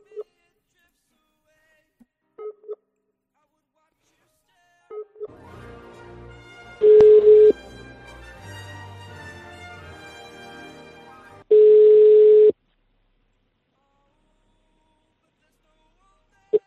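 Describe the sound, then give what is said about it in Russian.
Telephone tones as a caller tries a number again: a few short, spaced beeps, then a louder steady busy tone in two bursts with a faint buzzing line between them. “Еще раз попробую, который я скинул номер, на него набрать.”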